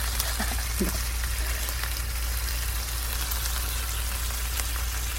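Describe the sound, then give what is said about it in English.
Food frying in a pan, with a steady, dense sizzle and scattered small crackles. It holds an even level throughout, with a low hum underneath and no talk. “Is this like on a pan? Are you cooking something on a pan? It is on a pan.”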